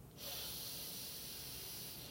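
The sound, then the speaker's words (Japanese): A slow, deep breath is drawn in during a guided breathing exercise with the back held straight. The soft, airy hiss swells in at the start and holds evenly and quietly to the end. “今の自分の体の中に残っている空気を吐き出して背筋伸ばしたままゆっくりたっぷり吸っていきましょう”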